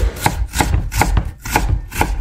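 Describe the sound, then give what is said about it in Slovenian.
Knife chopping garlic or onion, a steady series of sharp, crisp strikes at an even rhythm, each with a dull thud beneath, with no voices. “Če ste ugotovili, da je tole seklanje česna ali pa čebule”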